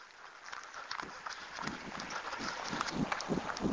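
Footsteps of a runner going up a short street, a steady stream of rhythmic footfalls at a brisk, even pace, moderately loud throughout.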